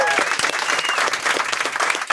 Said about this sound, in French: Hey, comme on l'a appris, on l'applaudit, Fred Savard.